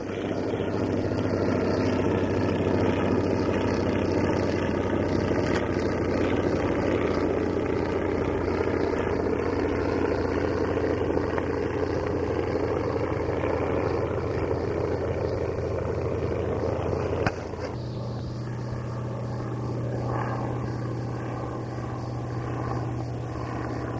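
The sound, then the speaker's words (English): A PT-23 trainer aircraft flies overhead, its propeller engine giving a steady, droning hum with a strong tonal buzz that shifts abruptly in tone near the end. “Walk overhead with a PT-23 coming up the runway.”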